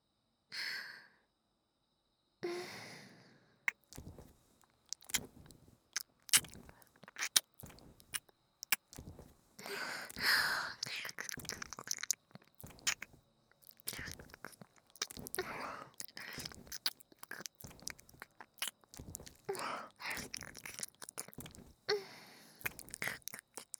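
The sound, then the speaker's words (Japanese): Close, wet nibbling and smacking mouth sounds in an ASMR ear-eating role-play, with many irregular clicks and soft bites. Quiet sighs and breaths are mixed in. “こっちに向けて。ダーリンの耳いただきます。”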